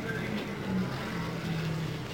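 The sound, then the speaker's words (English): Race cars roll past on the track during a close race, a continuous loud wash of engine noise without distinct individual passes. “Still on the track rolling by in front of us, Tony Bettenhausen”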